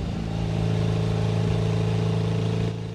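A car engine drones steadily at a mid pitch as the car drives along a road, then the sound drops away abruptly near the end.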